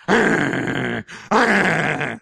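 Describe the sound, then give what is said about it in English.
A man's voice imitates a dog growling at a car window, two long, loud, rasping snarls with a brief pause between them and no other sound. “And you roll down your window and that dog just growls at you like the spirit of Cujo”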